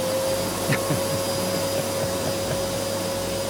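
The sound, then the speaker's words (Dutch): A vacuum cleaner runs with a loud, steady drone, a constant whining tone over a broad airy rush that stays even throughout with no talking. The machine is a famous writer's old vacuum cleaner, kept behind glass in a literature museum. “Dat is de beroemde stofzuiger.”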